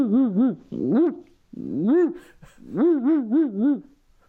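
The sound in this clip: A human voice imitates a big mastiff dog, producing four drawn-out, whining vocal bursts that waver up and down in pitch, fairly loud and alone.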